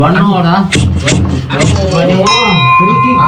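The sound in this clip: A bell rings for round one of a match. Its bright, sustained tone enters late and rings on beneath loud overlapping talk.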